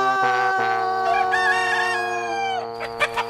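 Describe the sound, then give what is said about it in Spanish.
An old rooster crowing in a folk tale, heard as one long, strongly tonal call with rich, steady harmonics lasting over two seconds, then a few short bursts at the end. “Y por fin el gallo abrió el pico y exclamó: ¡Cuidado allá arriba!”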